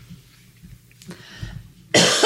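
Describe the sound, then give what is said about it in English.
A single harsh, gross cough bursts out loudly and suddenly near the end, after quiet low rumble. “That was a really gross cough.”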